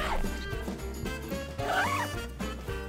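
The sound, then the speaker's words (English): A clothing zipper being pulled, with a ragged, rasping texture that runs fairly loud and steady across about three seconds with a couple of brief dips. “It's a zipper.”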